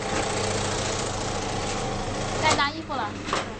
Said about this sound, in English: At a clothing factory on the outskirts of town, rows and rows of young women sit behind huge sewing machines, stitching shirts.